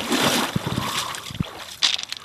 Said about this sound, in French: Alors là, il est dans l'eau, avec un grand sourire.